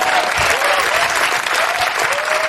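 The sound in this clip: Applause from a television studio audience: many hands clap loudly and steadily, a thick, even patter that keeps going throughout.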